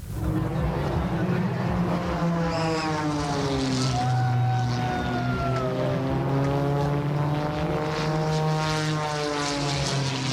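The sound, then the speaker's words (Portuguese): Loud roar of propeller-driven aerobatic race planes flying fast over the Douro river, a steady engine drone whose pitch sweeps up and down as the aircraft pass. “Entre a Ponte da Arrábida e a Ponte Dom Luís, os aviões passaram a grande velocidade e prendem a atenção de quem acompanha o espetáculo.”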